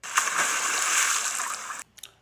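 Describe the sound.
A water splash rushes out as one broad, loud burst lasting nearly two seconds, then breaks off into a couple of small trailing splatters.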